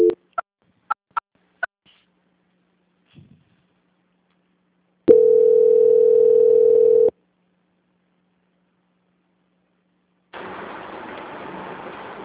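A telephone ringing tone during a call transfer: a few short, sharp beeps, then one steady mid-pitched ring lasting about two seconds, followed by silence and a softer burst of hiss-like line noise.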